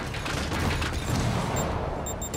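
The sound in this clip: Rockets firing and exploding in a video game make a dense, continuous roar of blasts and rumbling that blurs into one loud barrage, with no separate bangs standing out.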